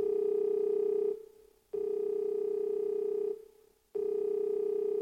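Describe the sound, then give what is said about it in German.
Telephone ringing for an incoming call: a steady, buzzing mid-pitched tone that is cut by two short pauses, repeating in long bursts with no voices. “Ah, jemand ruft an.”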